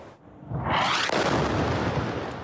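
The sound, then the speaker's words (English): An explosion from an airstrike hitting homes and buildings in the Gaza Strip swells from a low rumble into a loud, broad roar that stays heavy and sustained to the end. “Israeli airstrikes are bringing further destruction across the Gaza Strip, with dramatic footage capturing the moments homes and buildings are hit in another wave of attacks”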